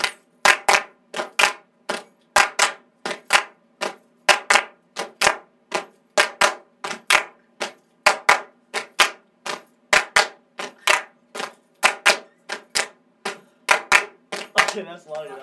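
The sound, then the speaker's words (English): Hand clapping laid down as a recorded clapping track: many crisp, loud claps fall in a steady, evenly spaced rhythm, continuing throughout with only brief gaps between them. “we don't know how long we're gonna do the clapping track, but we can just like copy and paste it.”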